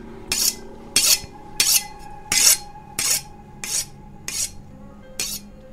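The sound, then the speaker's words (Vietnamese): A knife is sharpened in eight evenly paced rasping strokes, each a bright metallic scrape of similar loudness, with quiet gaps between them. “Lúc thì là tiếng va chạm của kim loại đập xuống mặt gỗ, lúc thì là tiếng mài dao leng ca leng keng”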